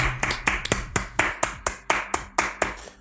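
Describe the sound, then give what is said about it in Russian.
Hands clap in a steady, even rhythm, a run of sharp, crisp claps of similar loudness repeated briskly over about three seconds. “Я искренне надеюсь, что на этот момент вы все поаплодируете.”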